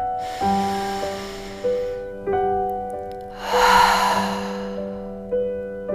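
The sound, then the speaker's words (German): A deep breath taken in and let out during a guided music meditation: a soft, airy rush of breath that swells into one prominent breathy exhale over calm, sustained musical tones. “Dann noch einmal einen tiefen Atemzug.”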